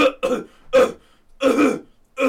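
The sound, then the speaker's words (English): A voice imitates an old man's uncovered coughing: several short, hoarse, voiced bursts with brief pauses between them. “just didn't cover his mouth one time. Just coughed”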